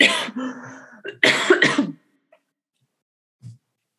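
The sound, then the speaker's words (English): A person is caught in a coughing fit: several harsh, close-spaced coughs and throat-clearing bursts, loud and crowded into about two seconds, then quiet with one faint low sound near the end. “excuse me, coughing attack”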